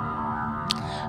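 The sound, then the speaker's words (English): Whale vocalizations: low, sustained tonal moans with stacked harmonic bands hold steady at moderate level, with one brief sharp click cutting in partway through. “This is the sound of whales.”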